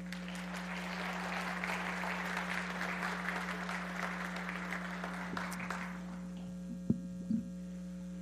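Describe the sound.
A church audience applauds as a couple steps up to the platform. The clapping is steady and moderately loud over a constant low electrical hum, dies away after about six seconds, and leaves the hum and a couple of soft thumps.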